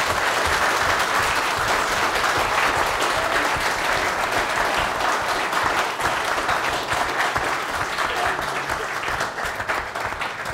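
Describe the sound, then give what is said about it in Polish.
Applause from a crowd: dense, steady clapping that runs continuously for about ten seconds and eases slightly toward the end. “Wielkie brawa dla inwencji.”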